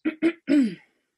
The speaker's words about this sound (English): She clears her throat before reading from her notebook.